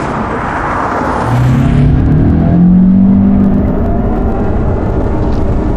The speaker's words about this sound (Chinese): 这我这开快点，没让你漂移。